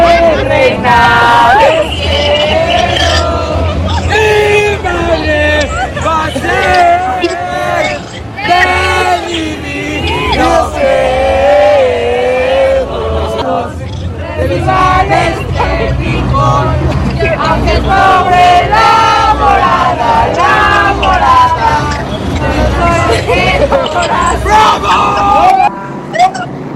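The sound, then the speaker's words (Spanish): A crowd sings Christmas posada litanies at the FIFA Fan Fest. Many voices blend in a loud, sustained, wavering chant that runs without a break. “en esta salida del FIFA Fan Fest, mientras pues se adelantaron algunos meses, Enrique, ya se hicieron las letanías para pedir de plano posada. Escuchemos.”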